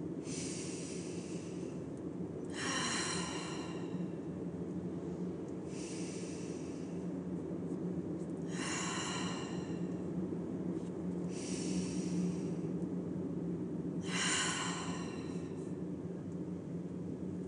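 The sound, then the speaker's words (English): Deep breaths taken together during a guided breathing exercise: three slow breaths, each heard as two airy bursts of inhale and exhale, spaced evenly over a steady low background drone, with no talk. “So let's take 3 more deep breaths together.”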